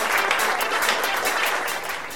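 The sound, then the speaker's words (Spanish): Canned applause plays from a sound-effect button: dense, steady clapping and cheering that holds at an even level and eases slightly at the very end. “Veo que os alegra que haya arreglado el botón de los aplausos, ¿verdad?”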